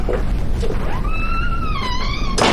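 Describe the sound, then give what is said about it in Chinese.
A door is pulled shut: a drawn-out, wavering high squeal builds and then ends in a dull thunk, all over a steady low background rumble. “行，把门关上。”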